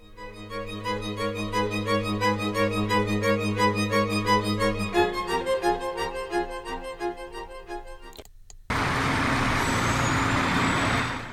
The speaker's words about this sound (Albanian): Kamionët ushtarak shkatrojnë edhe gjurmët e heshtjes në rrugët e Bergamos